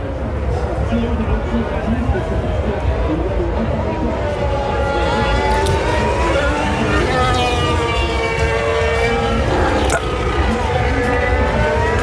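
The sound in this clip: Formula 1 race cars at the Monaco Grand Prix, their engines whining in high, sweeping tones that rise and fall over a constant dense roar, which holds loud and unbroken throughout.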